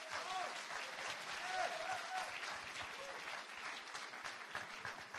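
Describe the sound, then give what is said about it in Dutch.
Steady applause from a large audience welcoming someone onstage, a dense, continuous wash of clapping that stays loud and even throughout with no voices standing out. “Laten we hem verwelkomen met een Zeeuws-Vlaams applaus.”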